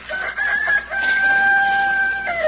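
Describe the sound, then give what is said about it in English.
A rooster crows at daybreak, one long drawn-out call held at a steady high pitch before dipping at the end, loud and alone. “You've been crowing since daylight. All right, all right. We're all up.”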